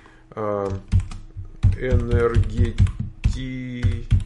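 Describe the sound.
Someone types a street address on a computer keyboard: quick clusters of clicking keystrokes run steadily under ongoing speech.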